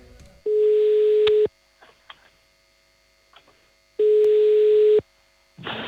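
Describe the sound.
A telephone ringback tone sounds while a call is placed: two identical steady, mid-pitched tones, each about one second long, separated by a long quiet gap with faint clicks.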